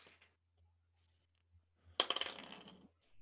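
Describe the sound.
Dice tumbling and clattering on a surface for an attack roll in a tabletop role-playing game: a sharp first strike, then a quick run of bright rattling clicks that fade within about a second.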